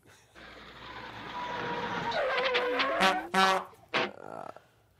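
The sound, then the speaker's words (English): A horn sound effect amid car and tyre-squeal noise: a sustained engine-like roar builds steadily, then a couple of loud, bright, brassy horn blasts cut in near the end before fading. “and I have missed that horn.”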